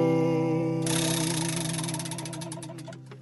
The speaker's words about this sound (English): And now, to engage the Pop Oracle on his behalf, I'm going to spin the Wheel of Eight.